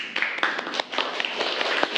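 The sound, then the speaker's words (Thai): Classmates clap for a group presenting in a school class, a scattered, moderately loud patter of hands with uneven rhythm, a few sharper individual claps standing out, continuing steadily without talk. “ปรบมือเพื่อนก่อนเร็ว”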